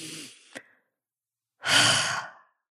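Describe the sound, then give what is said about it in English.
A deep breath: two airy breath sounds separated by a short silence, the second longer, louder and fuller like a sigh, with no talk around them. “So let's take a deep breath collectively together”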